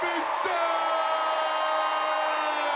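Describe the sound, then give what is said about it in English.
An audience gives a standing ovation at a stand-up comedy show, cheering and whooping as a comedian with a cane walks to the mic stand. The crowd noise is a loud, sustained roar with whoops rising out of it. “A crowd gives him a standing ovation as he approaches a mic stand.”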